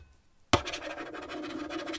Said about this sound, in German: schreibe ich mir jetzt auf